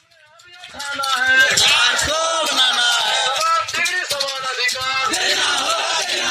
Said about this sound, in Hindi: अपने नारों में सरकार से जवाब मांग रहे ये शिक्षक DLED पास शिक्षक हैं